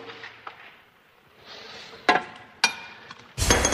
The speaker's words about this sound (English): Is it stuck? Yeah. Oh, geez, I dropped my nut.